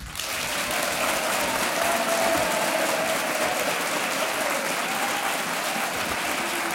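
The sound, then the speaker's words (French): Thunderous applause from a game show audience in Montélier welcoming contestants: dense, steady clapping that stays loud and even throughout. “Un accueil tonitruant.”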